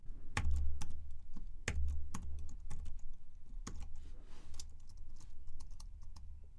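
Typing on a computer keyboard while entering network switch commands: many quiet, irregular key clicks, some in quick runs and some isolated, over a low steady hum.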